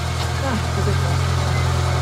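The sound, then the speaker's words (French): A car engine hums as a learner driver in reverse gear releases the clutch. The low, even hum holds steady with no clear change, and voices talk over it. “Marche arrière. Ouais. Allez-y, lâche l'embrayage. Non, il est pas passé.”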